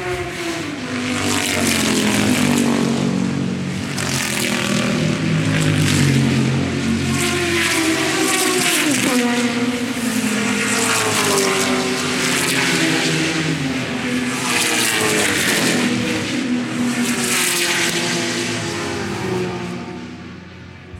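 A loud, continuous roar of racing car engines as the pack passes down the start-finish straight after the first lap at the Goodwood Members' Meeting, with overlapping engine notes rising and falling.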